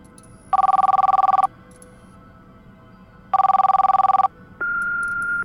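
A telephone rings twice in warbling bursts, each about a second long and separated by a pause, before voicemail answers; a steady, slightly higher beep-like tone follows to close.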